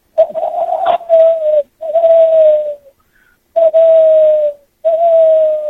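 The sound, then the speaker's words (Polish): A person imitates an owl call that resembles a mournful cuckoo, whistling four sustained hooting notes that each sag slightly in pitch, with short pauses between them. “To chyba jest jakaś sowa. Taka trochę zmieszana ze smutną kukułką, bym powiedział.”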